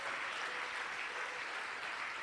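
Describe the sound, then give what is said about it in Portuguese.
Steady applause from an audience during a church service, a dense, even wash of clapping sustained throughout without pauses, no voices standing out. “Isso, vem, vamos aplaudir mais o Senhor Jesus.”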